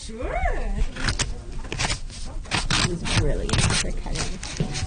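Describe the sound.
Cutting sounds as a young child does crafts at the library, a series of sharp, dry snips and scrapes in an uneven rhythm, with voices talking at the start.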